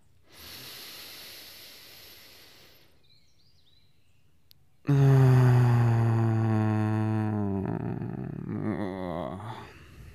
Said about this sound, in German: Lass uns einen tiefen Atemzug nehmen.